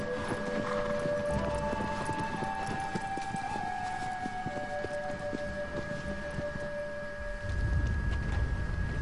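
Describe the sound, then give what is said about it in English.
Galloping horse hooves in a video game make a fast, even clatter of clip-clop beats. The hoofbeats run throughout over steady, sustained tonal game sounds. “Ride, horsey, ride!”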